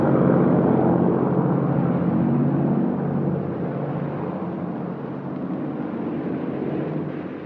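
An airplane engine drones as a parachutist leaps from the plane, a loud, steady low rumble that eases slightly about halfway through and then holds.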